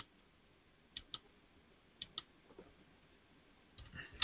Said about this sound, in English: Now, if I do a quick Google search, which I'm going to do, I'm going to do that now.